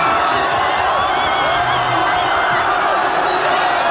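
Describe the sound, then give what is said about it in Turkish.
Spanish football fans roar and cheer after a World Cup final win, a dense, loud, continuous wall of crowd noise with shouts and whoops, steady throughout. “Bitiş düdüğüyle İspanyol taraftarlar çılgınlar gibi sevindi. Dünya Kupası şampiyonluğu coşkuyla kutlandı.”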